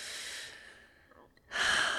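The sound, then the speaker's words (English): Breathy exhale with the head tilted back during a guided breathing exercise, a soft rushing airflow that trails away, then a pause before another strong breath sound starts. “And this time, tilt your head back and exhale.”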